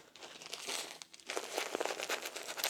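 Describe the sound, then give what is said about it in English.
A disposable diaper being taped up, giving a run of crisp plastic crinkling and rustling with a brief lull midway before louder crackling resumes. “Get this diaper all taped up nice and snug.”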